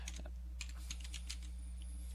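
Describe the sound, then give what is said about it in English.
Keystrokes on a computer keyboard: an uneven run of many light, sharp clicks over a steady low hum. “I'm not typing particularly well,”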